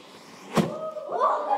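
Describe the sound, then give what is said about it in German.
A theatre stage explosion effect made with flash cotton goes off as a single short, sharp burst, followed by faint voices. “Damit kann man eine Explosion machen im Theater.”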